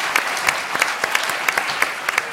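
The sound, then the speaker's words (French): Applause from an audience, many overlapping claps in a steady, sustained patter of even loudness throughout. “Yamen Manaï, que vous pouvez applaudir”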